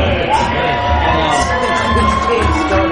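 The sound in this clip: A stadium crowd at a baseball game cheers in a loud, continuous roar, with shouts and whoops rising out of the dense crowd noise throughout.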